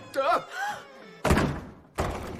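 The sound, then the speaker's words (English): Heavy thuds of a solid oak door falling off its hinges, with two loud, sharp impacts following a stretch of talk at the start. “The door falls off its hinges.”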